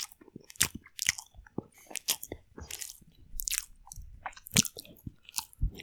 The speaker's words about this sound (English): I've unwrapped it, so I've got to do this one. Here's my chomp, so I'm just going to do the whole thing.